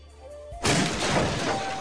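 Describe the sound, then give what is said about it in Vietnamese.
A bridge surface shattering and breaking apart, as a sound effect: after brief quiet, a sudden loud crash bursts in and carries on as a dense, sustained crumbling roar. “Mặt cầu dưới chân bỗng nhiên vỡ tung ra, một tảng lớn rơi xuống vực băng thầm thẳm.”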